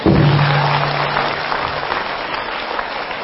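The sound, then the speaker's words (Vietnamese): Applause from an audience at a Vietnamese Buddhist gathering, with many hands clapping in a dense, steady patter that starts strong and eases slightly in loudness over a few seconds. “Vỗ tay.”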